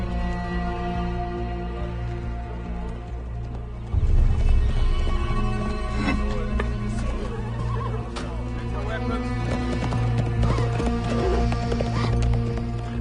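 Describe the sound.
Horses with riders approach, neighing and clip-clopping, growing louder from about four seconds in, over a dense, continuous background of sound.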